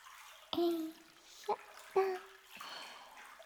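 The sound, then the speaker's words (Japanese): Hot spring water drips and splashes in a bath, a few distinct plinks with a resonant ringing tone, sparse and faint. “このままリラックスして温泉のお湯を染み込ませるように安らぎましょう。”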